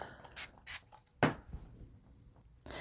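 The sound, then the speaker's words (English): Spray ink spritzed onto a small cut-out paper piece for a junk journal: a few short, quiet hissing bursts, separated by pauses, with a faint handling rustle between them. “I would cut out my little piece, and then I would just spritz it with some color.”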